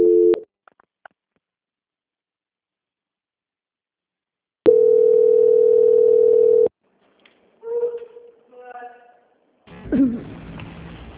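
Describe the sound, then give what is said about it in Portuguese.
Telephone tone heard while a call is put through a transfer: a brief beep, a pause, then one steady mid-pitched tone lasting about two seconds, followed by voices on the line. “Só permanecer em linha que eu vou transferir essa ligação para o setor de qualidade. Obrigada. Tá bom, obrigada. Transferência.”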